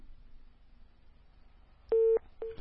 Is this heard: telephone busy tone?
yes